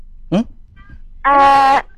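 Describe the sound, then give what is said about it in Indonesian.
A kitten meows in one long, loud, steady cry, preceded by a brief, shorter sound, with no talking over it. “Anak kucing.”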